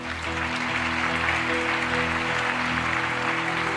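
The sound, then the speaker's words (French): A church audience applauding, a dense, even wash of clapping that holds steady for nearly four seconds, with sustained low musical tones running underneath. “Quelqu'un acclame Jésus.”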